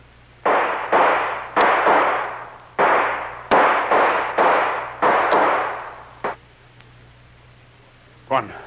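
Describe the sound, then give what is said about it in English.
Gunshots fired at people slipping between airport hangars: many sharp, loud bangs in quick succession, then a pause and one more shot at the end. “One of those bullets blew my hat off.”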